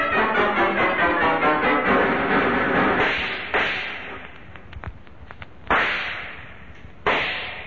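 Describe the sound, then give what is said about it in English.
Gunshots ring out in a tunnel shootout: sharp, loud cracks with abrupt onsets, the clearest three spaced apart over the second half, following a dense, rattling stretch at the start. “These openings in the tunnel wall make dandy foxholes, so you and I can keep shooting it out until Corbett comes back with help.”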